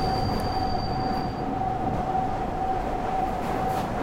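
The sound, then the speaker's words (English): A train engine drones steadily inside a tunnel in a train video game. Its constant rumbling hum carries a faint high tone and echoes evenly throughout. “you can hear that I'm currently inside. The sound of the engine is echoing against the tunnels.”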